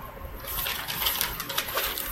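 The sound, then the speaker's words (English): Papers rustling: a crisp, dry crackle of handled sheets that runs steadily and fairly quietly for a couple of seconds with no talk over it. “rustling papers”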